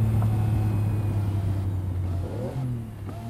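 A Ferrari sports car pulling up at the curb, its engine a steady low drone that eases and grows quieter near the end as the car slows.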